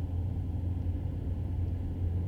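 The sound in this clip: A car driving in circles produces a steady, low rumble that stays even throughout, with no talk over it.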